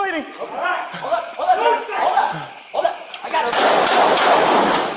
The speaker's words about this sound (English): Shots fired.